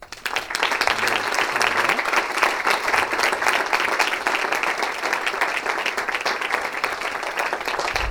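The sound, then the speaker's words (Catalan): An audience at a political campaign event applauds the campaign helpers. Loud, even clapping swells in within the first moment and stays dense and unbroken to the end. “També m'agradaria un fort aplaudiment per ells.”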